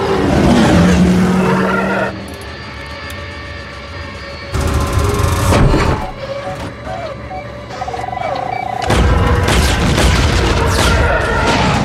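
Car engine revving as the driver accelerates: a loud, rough roar that surges and drops across several long stretches, with the pitch of the engine shifting between bursts of throttle.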